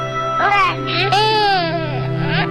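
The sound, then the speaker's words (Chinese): A baby cries in loud, rising and falling wails with short breaks between them, over a steady low hum. “宝贝别哭，爸爸抱。”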